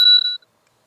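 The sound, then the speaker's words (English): A single strike on a chime set gives a bright, clear ringing tone that decays quickly into silence. “I do have a chime set, and hopefully you'll be able to hear this. So 180 hertz cycle sounds like this.”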